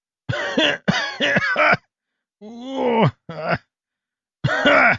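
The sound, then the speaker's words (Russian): Coughing and groaning from an old man roused by an antidote injection, voiced by a man: several rough, throaty, voiced bursts, then a pause and a few more strained coughs. “Закашлялся Распутин и непонимающе уставился перед собой.”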